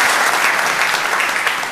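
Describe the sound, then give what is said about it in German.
Applause from an audience, a dense and even burst of clapping that holds steady and loud for about two seconds, with no talk over it. “Kleinen Applaus.”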